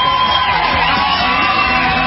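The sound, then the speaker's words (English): An audience cheering, a continuous roar of yelling and whooping voices blended into one loud, unbroken wash of crowd noise with a steady level throughout. “who doesn't applaud when you say the word gold?”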